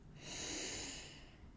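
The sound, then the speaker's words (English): A single deep breath drawn in through the nose, a faint airy hiss that swells and then eases off, with no other sound. “let's take a deep breath in through the nose”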